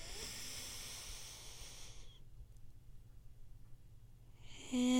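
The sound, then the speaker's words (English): A deep breath in heard as a soft, airy hiss lasting about two seconds, followed by a quiet pause and the start of another breathy sound near the end. “Now we're going to breathe in.”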